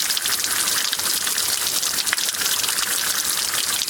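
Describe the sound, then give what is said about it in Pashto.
Fresh water rushes steadily through a narrow roadside channel beside a war-damaged bazaar, a continuous, even, hissing flow with no breaks and no voices. “که څه هم د سړک پر غاړه په یوه نری ویاله کې تازه ورنې اوبه بهیږي”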